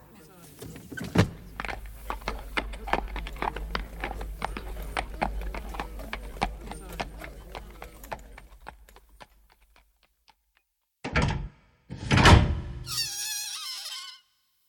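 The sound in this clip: Horse hooves clip-clop in a quick, even trot as a horse-drawn cab moves down Baker Street. The hoofbeats carry on steadily for about ten seconds, then stop, and a few short, louder bursts follow after a brief silence.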